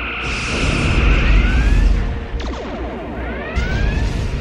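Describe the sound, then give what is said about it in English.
A starship fires all its weapon batteries in a barrage of sci-fi energy blasts: sweeping, zapping tones over a heavy, continuous rumble, with fresh bursts of fire breaking in partway through. “Schmitty, turn our ship around and show the buggers we still have teeth. Firing all batteries!”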